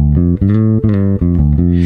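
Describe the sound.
A bass guitar with PJ pickups blended in the center plays a quick run of deep notes, each firm and sustained, with a full, rounded low end, heard alone without talk.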